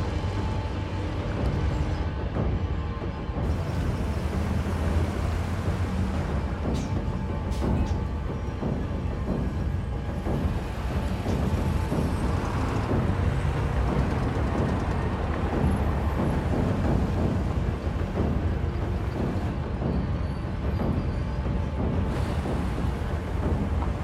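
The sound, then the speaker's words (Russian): A bus creeps slowly forward at a military checkpoint, its engine giving a low, steady rumble that continues at an even level for the whole stretch. “Автобус медленно продвигается вперед.”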